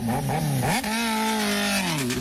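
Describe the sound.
A motorcycle engine revs loudly and without a break. Its pitch dips and then climbs sharply near the start, holds as a steady, strong drone, and sags slightly at the end.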